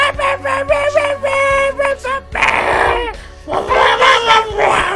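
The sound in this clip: A person imitates a dog, voicing loud, repeated yelping barks and whimper-like cries in a quick series.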